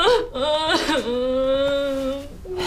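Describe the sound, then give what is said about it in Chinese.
A person cries in a loud, drawn-out wail, the voice wavering and breaking into sobs before holding a long, strained high tone, with no other sounds around it. “哎呀，行了，别哭了，哭也解决不了问题呀。”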